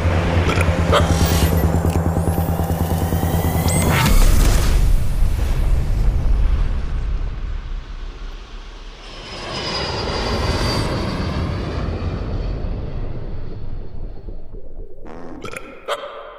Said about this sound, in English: Hold tight, boys. Launching pod in 3, 2, 1.